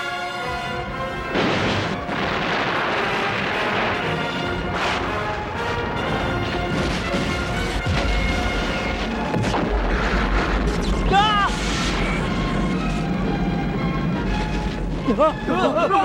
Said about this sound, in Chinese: 左舷收到炮击。